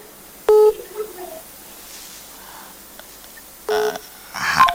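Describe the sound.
A telephone line connecting on a radio call-in: short electronic dialing beeps, one burst near the start and two more toward the end, over faint hiss.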